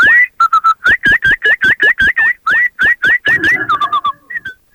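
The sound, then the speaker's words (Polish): A man whistles an imitation of blackbird song: many quick, bright notes, each sliding sharply in pitch, delivered in fast, loud bursts with no other sound around them. “mamy wśród słuchaczy pana z Siemianowic Śląskich, który tak pięknie naśladuje gołębie... Cukru, cukru, cukru. I kosy...”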